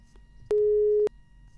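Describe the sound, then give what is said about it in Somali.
A steady electronic beep sounds on a telephone line that has cut off during a radio call-in, one flat, even tone lasting about half a second against faint background noise. “Qadka telefoonka ayaa dhegeystahaasi ka go'ay”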